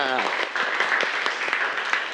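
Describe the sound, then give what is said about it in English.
Applause from students during an English vocabulary lesson: a dense, steady patter of many hands that fills the whole clip, with a brief voice at the very start. “everybody clap your hand for students who are watching on the archery”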